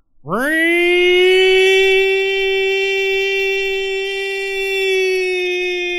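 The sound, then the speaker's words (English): A town siren winds up quickly from a low growl to a high wail, then holds a loud, steady, tonal note for several seconds with only slight swells in volume. “as the town becomes alive with the sound of the siren”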